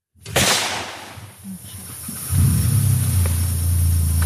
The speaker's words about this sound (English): He starts the UTV back up, and we move on.